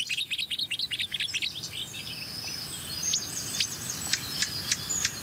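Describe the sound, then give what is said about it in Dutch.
Blackcap alarm calls: sharp, dry ticking notes repeated at irregular intervals, following a quick run of high chirping notes at the start. “Zwartkopalarm.”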